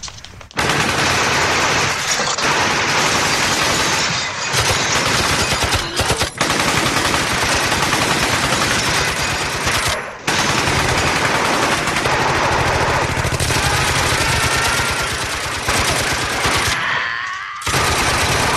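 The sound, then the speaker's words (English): Automatic gunfire from a shootout scene in The Godfather: a long, loud, relentless hail of rapid shots that runs almost unbroken, with only a few brief pauses before the final burst cuts off. “See if you can count the bullets, by the way. And guess the movie.”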